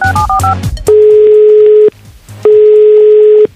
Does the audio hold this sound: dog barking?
no